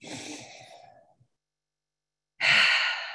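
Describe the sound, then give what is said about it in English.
A deep breath taken during a guided pause in a talk: a long, soft, sighing breath that fades out, a moment of silence, then a louder, full rushing breath that stays strong to the end. “Let's all take a nice deep breath.”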